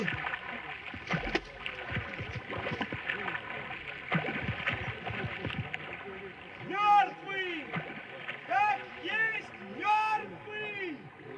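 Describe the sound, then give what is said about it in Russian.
Water splashing and gurgling as a kayuk boat is paddled across a river in a Cossack radio drama, with rhythmic paddle strokes under loud shouting voices of several men. “Ведут каюк, что ли? Назарка ведет!”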